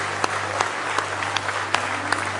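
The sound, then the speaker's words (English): A church audience claps hands in praise during a morning service: a dense wash of applause with sharper claps standing out at a regular rhythm, roughly three per second. “let's give him a real good hand clap of praise in the house of the Lord this morning.”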